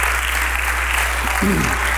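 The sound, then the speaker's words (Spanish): A church audience applauds God in acclamation during a service, with dense, even clapping over a constant low hum and a brief voice near the end. “Vamos a darle un aplauso de aclamación a nuestro Dios por todo lo que Él hace.”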